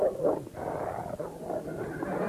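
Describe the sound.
A dog makes low, rough growling and snuffling noises in a continuous, fairly even stretch, with no talk.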